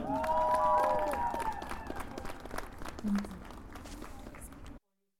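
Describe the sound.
Faint applause from an audience welcoming a speaker at a Kurdish students' demonstration in Berlin, a patter of clapping that starts under a voice and fades before cutting off.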